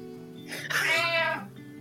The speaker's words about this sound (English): That's the cat for boo hiss.